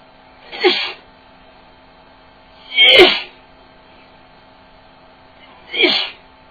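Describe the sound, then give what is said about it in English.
Three sharp sneezes from a person allergic to feathers whose nose is being tickled. Each is a quick, forceful burst, evenly spaced with quiet gaps between them, and no talking is heard. “Oh God, please don't make me sneeze anymore.”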